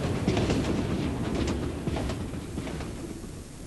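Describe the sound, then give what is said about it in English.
A train rumbles at a railway station, a continuous low drone with faint clattering from the rails and no talking. “Excuse me, does this train stop at Gatwick?”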